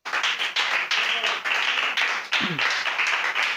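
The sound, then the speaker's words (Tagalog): Audience clapping to praise the Lord during a church service, a sustained wash of applause rising and easing in several surges, with a voice briefly heard beneath. “Palakpakan mo natin,”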